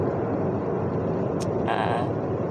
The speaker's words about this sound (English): I can't even talk about it right now. I can't. I'm going to have to stop myself, because I'm driving right now, and it's not very smart for me to get that emotional while I'm driving.